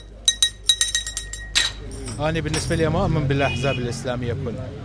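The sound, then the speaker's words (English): Glasses clink in a tea shop in Bakuba, north of Baghdad, where men are playing cards; a quick run of sharp, bright clinks comes first, then men's voices talk over a low room murmur. “This time around, the wind is blowing in a different direction, according to the men playing cards at this tea shop in the city of Bakuba, north of Baghdad.”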